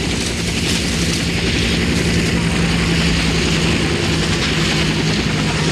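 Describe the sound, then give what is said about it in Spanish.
A helicopter slowly descends to land on a school's open grounds to pick up an injured person, producing a loud, steady, droning engine and rotor roar with a low hum that stays even throughout. “Un helicóptero baja lentamente sobre la explanada de la escuela a recoger al herido.”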